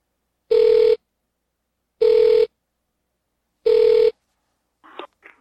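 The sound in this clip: Telephone ringing as a call is placed: three long, steady ring tones at even intervals, then a brief faint sound at the end.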